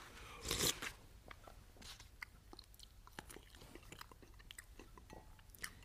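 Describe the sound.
Someone chewing food: faint, moist crunching and many small irregular bites and clicks, with a short rustling burst near the start.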